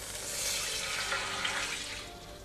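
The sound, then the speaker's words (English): Beef broth pouring into a roasting pan set on stovetop burners over high heat, giving a soft, continuous rush and splash of liquid that runs evenly without a break. “Place the roasting pan on top of your stovetop burners over high heat. Add the beef broth”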